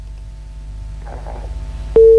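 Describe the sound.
A telephone disconnect tone follows a call that has been cut off. Quiet line noise and a faint murmur give way to an abrupt, loud, steady pure tone that holds to the end.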